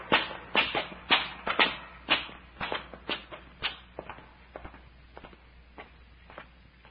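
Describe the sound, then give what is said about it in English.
Footsteps climb a long flight of steps: many steady, evenly spaced treads, crisp and prominent at first, then gradually fading as they go on. “This climb is making me dizzy. I must be getting old. Oh, it ain't age, Doctor. We've climbed up more than a mile of these steps.”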